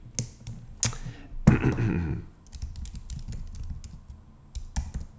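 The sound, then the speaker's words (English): Computer keyboard typing in irregular bursts of sharp clicks, with short pauses between runs of keystrokes and a denser cluster of taps partway through. “I will type like I am Carrie Bradshaw.”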